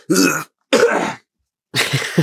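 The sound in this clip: Three short, dry coughs, like throat clearing, come in separate bursts with clear silent gaps between them.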